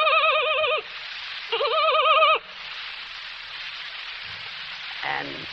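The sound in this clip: A voice imitating a pony's neigh: two high, quavering whinny calls with a rapid wobble, each cut off sharply, then a soft breathy hiss.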